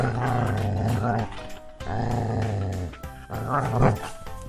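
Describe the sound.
A dog barks angrily and growls in three long, loud, harsh bursts separated by brief pauses.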